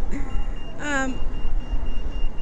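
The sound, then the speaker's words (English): Street traffic rumbles steadily beside a fountain on a sunny day. A brief wavering tonal sound rises over the low noise, and a thin, steady high whine runs underneath. “I suppose you hear the traffic more than the fountain.”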